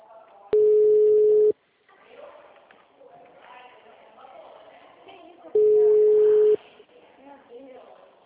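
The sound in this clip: Ringback tone sounds while a phone call is being placed: two steady, mid-pitched one-second beeps separated by a long pause, with people talking quietly in between.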